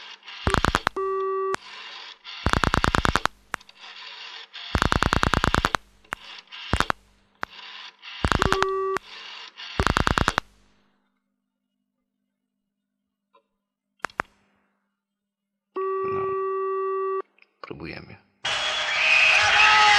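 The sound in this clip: Telephone line signal tones while dialing a long-distance number: a string of loud, buzzing tone bursts in an uneven rhythm, then a quiet stretch with a few faint clicks, another steady tone, and a noisy burst at the end.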